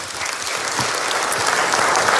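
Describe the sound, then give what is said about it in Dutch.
Applause from an audience, a dense, steady patter of many hands clapping that holds at an even, loud level for about two seconds with no voices on top. “Graag je applaus voor Jasper Poisson.”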